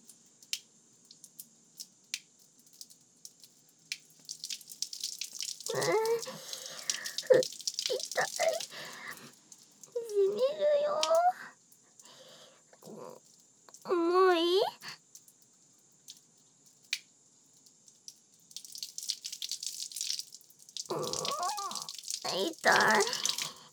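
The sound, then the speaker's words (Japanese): Water runs from a tap while feet are washed, coming in intermittent bursts of splashing hiss, with voices talking between and over the running water. “足洗う。”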